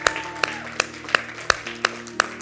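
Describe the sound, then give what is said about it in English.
Congregation clapping hands together at the close of a church service: seven sharp claps in a steady, even rhythm, with a faint sustained tone humming beneath. “Can you worship the Lord with a hand clap as we end today?”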